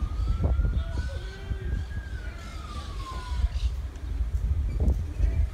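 A police siren sounds faintly in the background as one slow wail that climbs and then falls, half buried under rumbling, muffled noise.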